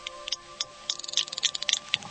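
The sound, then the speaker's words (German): Echolocation clicks from a toothed whale, produced in its nasal passages: a rapid, irregular train of many sharp, dry clicks that grows denser and louder partway through, over a faint steady tonal hum. “Zahnwale erzeugen in ihren Nasengängen Klicklaute und senden sie nach außen.”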